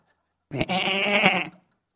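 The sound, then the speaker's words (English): A sheep or goat lets out a single bleat, lasting about a second. It is a wavering, nasal cry, fairly loud and heard alone. “a sheep or a goat, I'm not sure which, started bleating”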